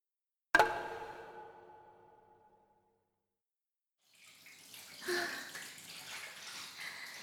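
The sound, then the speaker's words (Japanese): Water splashing and running in a bathtub as someone washes, starting after a single sharp ringing hit and a few seconds of quiet, then continuing as a steady, moderately loud wash of splashes. “それじゃあ、私先に体洗うから、お風呂入って待ってて。”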